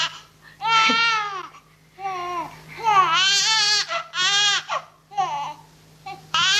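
A baby cries in a string of wailing, high-pitched sobs broken by short pauses, some bursts long and others brief and choppy.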